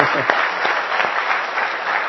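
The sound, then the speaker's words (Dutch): Warm audience applause at a service, dense, even clapping from many hands that carries steadily for about two seconds with no pause. “dankjewel voor het spreken. Dus ook daar een hartelijk applaus voor.”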